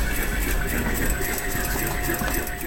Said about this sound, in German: Im Konfektionslabor wird eifrig genäht.